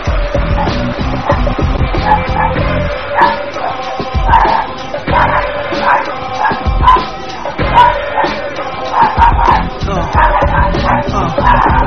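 Dogs bark loudly and repeatedly in sharp, overlapping bursts, with yips and yelps among them, and the barking carries on throughout.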